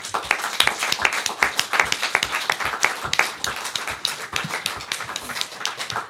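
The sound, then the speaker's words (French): A small audience gives an ovation at the close of a live illustrated radio show at the Nancy botanical garden, with brisk, distinct individual claps running unevenly throughout. “Et merci encore à tous les dessinateurs, bravo, une ovation s'impose.”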